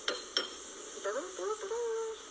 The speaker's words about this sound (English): Once you get it filled up, you're gonna wanna stir it around so that it's all mixed up.